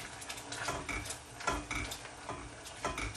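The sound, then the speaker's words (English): Spoon stirring cherries continuously in a pot so the pale pink mixture doesn't stick, making repeated scraping and clicking strokes at a moderate, uneven rhythm, with no voices. “continuously stirring it actually, just so it doesn't stick.”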